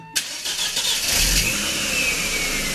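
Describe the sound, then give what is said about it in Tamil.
A car engine fires up with a sharp catch, then keeps revving at a steady mid-pitched drone as the vehicle pulls away. No voices are heard. “வண்டி எடுப்பா.”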